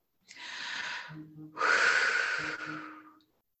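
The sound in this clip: Deep breathing, two long, breathy draws of air, the second louder and more sustained than the first, each tapering off smoothly with no voices.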